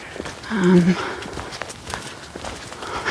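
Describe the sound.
Footsteps of a person walking along a hiking route: a series of soft, uneven thuds and scuffs with a brief louder stretch early on and faint background sound between steps.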